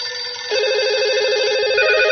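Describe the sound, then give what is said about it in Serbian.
Telephone ringing for an incoming call, a loud electronic trilling ring with a rapidly warbling tone that swells in about halfway through and then holds steady. “Poslužit ćemo se telefonom”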